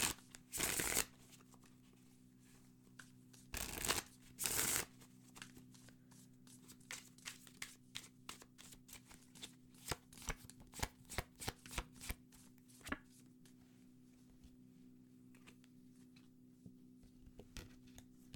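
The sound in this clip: A deck of tarot cards is shuffled and drawn: three loud riffling bursts near the start, then many faint, irregular flicks and taps of cards being handled and laid out, quiet throughout.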